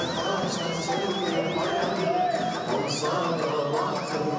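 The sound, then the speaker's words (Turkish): A crowd celebrates election results outside the Ankara Metropolitan Municipality, its steady, dense din topped by shrill, wavering whistle tones that come and go over the noise. “Saatler 8'i gösterirken Ankara Büyükşehir Belediyesi'nin önünde de şu an itibariyle kutlamalar başladı.”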